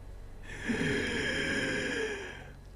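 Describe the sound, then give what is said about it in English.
A voice imitates laboured, wheezing breath: one long, strained inhale of about two seconds, raspy and hoarse with a whistling tonal edge, heard alone and fairly quiet. “And the breath it's drawing is very labored and wheezing.”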